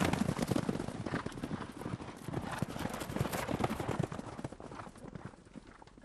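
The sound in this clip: Hooves of trotting horses in a harness race, a dense, rapid patter of hoofbeats that carries on steadily throughout at a fairly low level.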